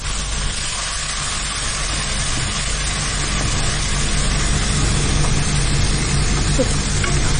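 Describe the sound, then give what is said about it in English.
Blended tomatoes and onions fry together in a pan for an African imvange sauce, giving a continuous, even sizzling hiss that holds steady throughout, with no talk over it. “I'm going to add the tomatoes and fry it all together for about 8 to 10 minutes.”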